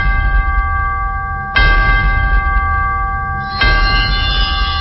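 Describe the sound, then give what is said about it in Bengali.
A bell rings at midnight with resonant metallic tones that linger over a low rumble; two fresh strikes land about two seconds apart on top of the sustained ring. “You can already listen to the ring bell, বেজে গেছে।”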